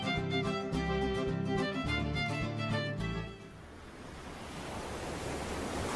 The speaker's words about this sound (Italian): Ma guarda quelle onde